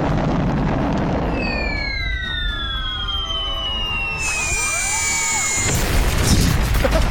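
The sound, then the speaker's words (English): Explosion blowing up a turtle in a game struck by rockets: several descending whistling tones slide down over a dense noisy bed, then a crashing burst gives way to harsh continuing noise. “Damn. Blew up the turtle. Blew the turtle up.”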